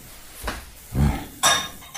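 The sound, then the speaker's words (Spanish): Dishes being washed, with plates clattering in a kitchen sink: a few separate knocks and clinks of crockery, fairly loud and spaced out, with no talk. “Otra vez a fregar los platos.”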